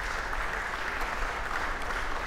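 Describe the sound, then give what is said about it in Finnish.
A small, enthusiastic concert audience applauds inside the medieval stone church of St. James in Rymättylä, producing a steady, dense wash of clapping that holds an even level for the whole clip. “Konserttipaikka on tänään Rymättylän Pyhän Jaakobin kirkko, keskiaikainen kivikirkko. Yleisöä tänne ei mahdu kovin paljon, mutta se on sitäkin innostuneempaa, kuten kuuluu.”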